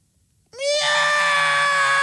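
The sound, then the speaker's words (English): A human voice imitating a cat meowing: one loud, drawn-out cry that swoops up sharply at the start, then holds a steady, bright, high tone, heard alone. “And he'll go upstairs and then he'll go, meow!”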